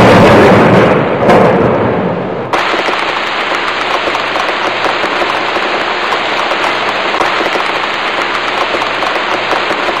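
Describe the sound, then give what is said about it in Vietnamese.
Light rain falls at nightfall as a steady, dense hiss of tiny drops pattering on surfaces. A louder rushing wash fills the first couple of seconds, then gives way to an even patter. “Màn đêm buông xuống thật đúng lúc, một trận mưa nhỏ cũng đến rất kịp thời”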